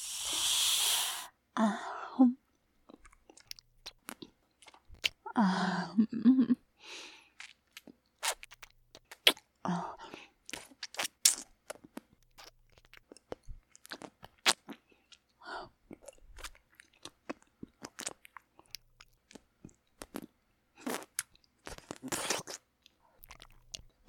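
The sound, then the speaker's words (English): Crunchy biting and chewing of food: many irregular, crisp crunches and wet mouth clicks follow one another in bursts, fairly faint and with no talking. “You look delicious. Let me just have a taste.”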